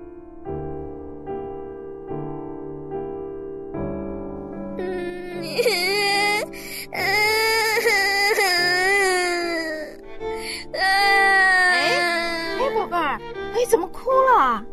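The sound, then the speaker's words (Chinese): A child cries and wails in loud, wavering sobbing bursts that rise and fall over soft background music, starting after a quiet musical opening and continuing to the end. “为什么哭啊？ 弟弟拿了我玩具去玩。”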